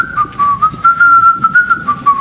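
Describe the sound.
A person whistles a lilting, wavering tune at a fairly high pitch, imitating a woman who whistles contentedly while she works serving at the table. The short phrases carry on steadily throughout.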